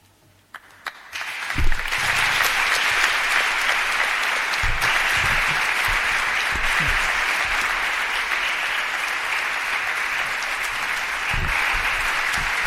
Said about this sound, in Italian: Cari amici, il vostro applauso è alla Vergine